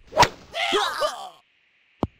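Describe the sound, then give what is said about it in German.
A golf club swings for an approach shot toward a flag and hole. A quick, bright swishing burst is followed by a ruffled stretch of noise, then after a pause a single sharp, crisp crack. “Ich hab mein Hammer gegen einen Golfschläger eingetauscht. Da hinten haben die extra eine Fahne und ein Loch aufgebaut. Ich probier mal einen Annäherungsschlag.”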